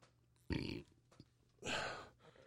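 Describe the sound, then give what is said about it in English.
Two loud burps from a man drinking something bubbly. The first is short and the second longer and fuller, with a quiet pause between them and no talk over them. “I'm burping. My bad.”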